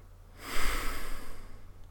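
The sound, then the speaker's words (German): A single deep, airy breath swells in about half a second, holds briefly, then fades away over roughly a second, alone and fairly loud. “Nimm noch mal einen tiefen Atemzug”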